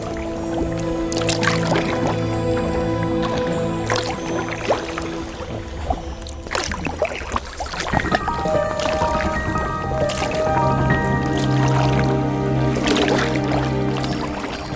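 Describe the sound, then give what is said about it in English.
A boat is paddled on the sea, making repeated watery swishes, splashes and drips from the paddle strokes at a fairly even loudness over a sustained tonal background. “So we might paddle on a little bit, guys.”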